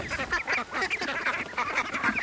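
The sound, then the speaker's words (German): Ducks quacking as a group of about ten is let out onto a pond: a steady stream of overlapping, fairly faint quacks with no clear pause. “Ich hatte drei. Zehn. Zehn Enten.”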